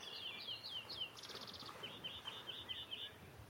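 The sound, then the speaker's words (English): Greenfinch song by a natural lake in Wales: repeated high chirps and buzzy trilled phrases in quick series, fairly faint over a low steady background rumble. “There's a green finch singing here.”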